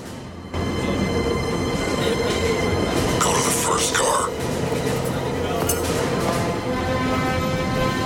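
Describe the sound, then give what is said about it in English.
A train draws away from a station with a steady, continuous rumble and rattle of carriages on the rails, broken midway by a brief high squeal of wheels. “The train starts to draw away from the station”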